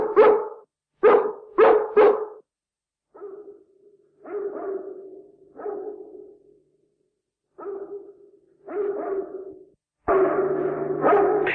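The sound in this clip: A dog named Pongo barks on a cold night in London. A few sharp barks come in quick succession, then spaced, drawn-out barks, ending in a louder sustained outburst.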